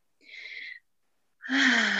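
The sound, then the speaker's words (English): A deep breath taken by a man, heard as two breathy sounds with no talk: a short, soft hiss, a brief silence, then a louder, fuller breath with a slight voiced edge. “I had to take a deep breath”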